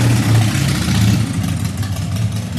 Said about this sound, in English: my friends who are motorcycle riders tell me it's useful to have a loud bike so that you are noticed on the road. I just fucking hate it, though. I think there should be noise ordinances.